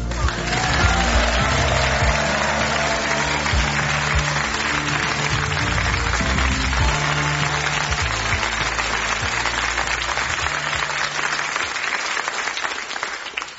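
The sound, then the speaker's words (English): Sustained audience applause greets a performer presenting his Christmas single, a dense, steady wash of clapping that stays loud throughout and thins slightly at the end. “And here he is, Mr. Brian Appleton. Give it up for Brian.”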